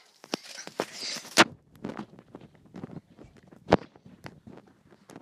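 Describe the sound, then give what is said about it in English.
Footsteps climbing a flight of stairs indoors: many uneven thumping steps with soft scuffs, a few landing noticeably harder than the rest, with no talk over them. “We are going up the stairs.”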